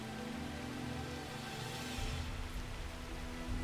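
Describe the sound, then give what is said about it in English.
Steady rain falls as a continuous soft hiss, with a low rumble that grows a little fuller partway through. No voices are present. “It seems as if each footfall into slick, sopping mud is mirrored by a thousand drops of rain falling from the heavens.”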